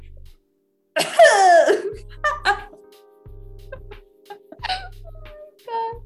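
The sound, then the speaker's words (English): A person forcing a fake cough in one short, voiced burst, followed by a few brief vocal sounds. “I can't fake cough properly.”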